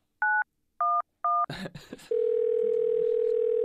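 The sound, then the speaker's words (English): Three evenly spaced touch-tone beeps dial the emergency number 000, followed by a few handling clicks and rustles, then a steady continuous line tone. “You have dialed emergency 000. Your call is being connected.”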